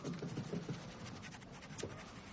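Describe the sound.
Pen scribbling frantically in a notebook, laying down thick black lines: faint, quick scratching strokes, busiest at the start, then a steadier rasping scrawl.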